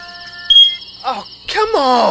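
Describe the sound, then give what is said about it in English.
A smoke detector with a dying battery gives a single sharp, high-pitched chirp in the middle of the night. A person then groans and exclaims in annoyance. “it's your smoke detector battery dying at 3 a.m.”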